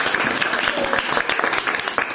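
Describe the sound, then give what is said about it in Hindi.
Loud applause from an audience at a school event, many hands clapping in a busy, crackling stream with frequent sharp peaks across the full two seconds. “जोर से तालियां बजनी चाहिए।”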